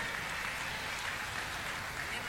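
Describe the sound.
An audience applauds Chile's older generation of cueca dancers, the clapping a soft, continuous, hiss-like patter that stays level throughout.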